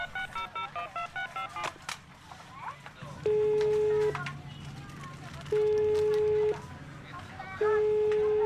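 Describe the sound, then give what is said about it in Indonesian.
Telephone keypad tones as a number is dialed at a warung: three long, steady, loud beeps spaced a second or two apart, heard over background voices and chatter. “ini juga lagi dipencet nomornya,”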